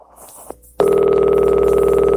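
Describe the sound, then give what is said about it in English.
A telephone line's ringing tone after an operator connects a call: a faint click, then a steady buzzing tone starts abruptly and holds unbroken to the end. “It's ringing now, sir.”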